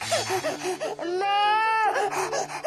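A baby crying, a small child: short fussy whimpers give way to a sustained, high wailing cry in the middle, followed by more broken sobbing sounds.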